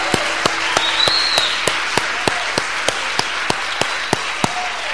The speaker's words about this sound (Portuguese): Aleluia, aplauda o Senhor.